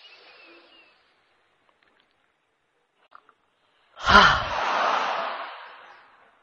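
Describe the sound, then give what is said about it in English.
A single deep breath is drawn in during a guided relaxation exercise. The airy rush swells suddenly after near silence, then tapers off over about two seconds. “Another deep breath in.”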